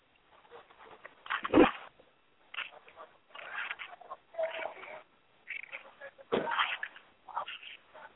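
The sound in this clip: A dog barks in a few loud, muffled bursts separated by quieter gaps, with a narrow, telephone-like tone.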